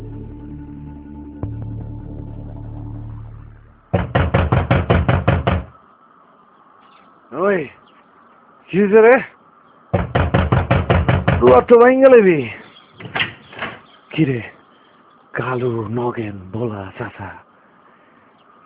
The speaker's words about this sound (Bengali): অথচ সকালের পাখিদের সমস্ত কোলাহল ছাপিয়ে অন্যরকম এক ভয়ঙ্কর কোলাহল যেন মজুর ঘরের দরজা ভেঙে ফেলছে।